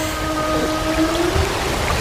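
A whale's call: faint, drawn-out tonal moans that hold steady and bend slightly, set against a constant watery hiss, with no talk.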